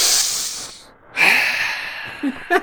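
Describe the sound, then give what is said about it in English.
A voice imitates loud, deliberate breathing, as if done while walking around a supermarket: a long hissing exhale, a brief silent gap, another long breath, then two short, sharp puffs. “just when you consciously commit yourself to being a part of your breath in whatever activity you're doing. Even if you're going shopping at the supermarket. You don't have to walk around the supermarket going.”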